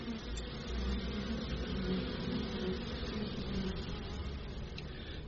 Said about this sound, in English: Now we are the beekeeping range of our school. Student can learn the beekeeping.